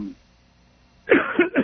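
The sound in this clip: Short coughs or throat clearing from a caller on a telephone line: three quick, rough bursts after about a second of near silence, with no speech.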